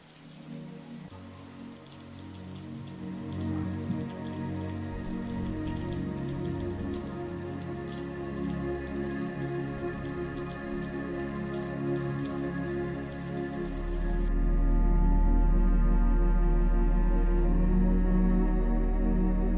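Persistent rain falls as a steady, dense hiss of drops on surfaces, continuous throughout and growing fuller, with a deeper low rumble in the final seconds.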